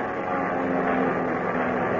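A steady engine drone from an airplane climbing steeply ahead of a storm. A low hum sits under a dense roar that holds at an even level throughout, with no voices.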